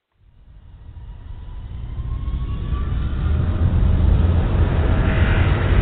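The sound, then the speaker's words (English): Jet airliner engines spooling up for takeoff, a roar that swells steadily from silence into a loud, dense rumble, with a faint thin whine riding above it. “Eastern 21, I see you have both sides started, and you're cleared for takeoff.”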